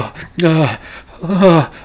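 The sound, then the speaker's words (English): Voice imitating an injured woman lying on a gurney in a neck brace, whimpering and moaning: two drawn-out, strained moans with a wavering, slightly falling pitch, separated by a breath. “she's just whimpering, moaning. It's just kind of like with every breath, it's like,”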